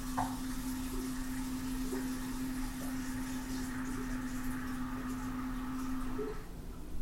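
Running tap water while something is washed: a steady, even rush of flowing water holds at a constant level with a low hum beneath it, then briefly dips and wavers near the end.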